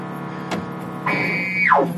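Electronic sound effect from the old black-and-white arcade game Death Race as run-over pedestrians die and become gravestones: a brief click, then a steady high tone that sweeps sharply down in pitch.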